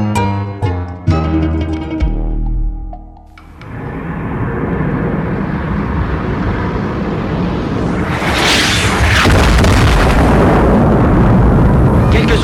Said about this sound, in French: L'objet tombé du ciel s'est écrasé juste là derrière. J'ai entendu plusieurs explosions comme des bangs soniques.